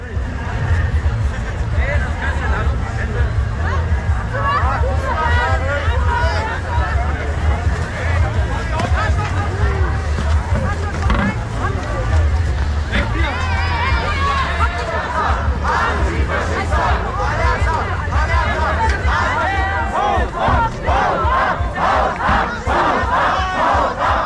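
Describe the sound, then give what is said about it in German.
Crowd noise from a violent anti-AfD demonstration in Giessen: loud, continuous shouting and yelling from many people, with chants and cries overlapping over a steady rumble for the whole stretch. “Die Anti-AfD-Demonstrationen, die gewalttätig verlaufen sind. Jetzt schauen wir noch mal einen Clip, dass wir ein bisschen Vorstellung haben, wie da gelaufen ist.”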